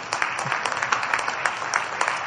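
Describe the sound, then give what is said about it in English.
Applause from a church audience as a member is called up front: many dense, overlapping claps at an even, steady level from start to finish. “Everybody clap”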